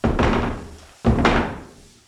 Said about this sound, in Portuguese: Relâmpagos e trovões.